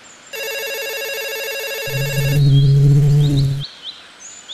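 A telephone rings in a garden: a bright trilling electronic ring holds steady for about two seconds, overlapped and then followed by a lower buzzing tone, with a few faint chirps near the end.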